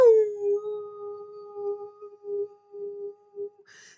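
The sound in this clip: A long, sustained howl holds a steady mid-pitched tone for about three and a half seconds, swelling and fading gently in loudness with no other sounds around it.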